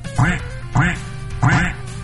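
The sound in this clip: A person imitates a duck, giving three evenly spaced, nasal quacks that are fairly loud over a steady low background.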